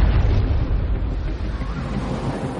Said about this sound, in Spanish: a las 19:55, explota en el barco una carga enorme. Son bombas cuidadosamente colocadas por la propia tripulación del Graf Spee.